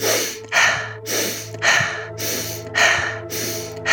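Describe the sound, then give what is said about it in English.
Many rapid breaths during a breathwork exercise, drawn in through the nose and pushed out through the mouth in a quick, even rhythm, each breath a short airy burst over a low steady hum. “Now begin to breathe more rapidly in through your nose and out through your mouth.”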